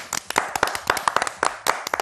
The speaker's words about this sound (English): And finally, clap if you're against waiting for a few more minutes to start the fun and excitement today.